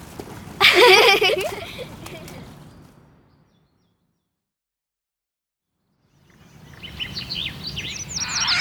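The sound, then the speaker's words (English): Bird chirps come in two bright, busy bursts: one near the start and another that builds toward the end, with near silence between them. “They're birds.”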